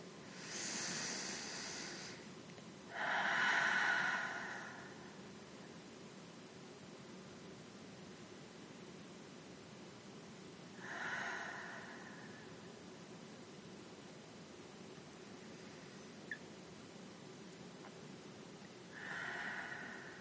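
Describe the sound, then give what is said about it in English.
Slow deep breaths taken during a guided meditation, soft airy hissing inhales and exhales separated by long quiet pauses, faint and with no talk. “Let's start by taking 3 deep breaths.”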